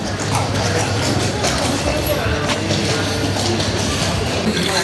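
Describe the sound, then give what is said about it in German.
Clip-clop of horse hooves from a passing horse-drawn carriage, a loud, continuous clattering rhythm with mechanical rattling that fills the whole stretch at a steady level. “Ah, es kommt jetzt auch Kutsche.”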